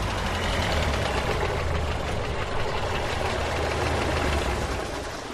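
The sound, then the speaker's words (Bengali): Car engines rumbling as three cars arrive one after another and stop beside the Bhera river, a steady low idling drone with no voices, holding level and easing off slightly at the end. “১০:৩০ নাগাদ পরপর তিনখানা গাড়ি এসে থামল ভেড়া নদীর ধারে।”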